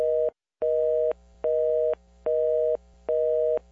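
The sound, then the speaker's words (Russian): Telephone busy signal: five short, steady beeps at an even, mid-pitched tone, separated by brief silent gaps in a regular on-off rhythm, with no voices. “Пошли короткие гудки.”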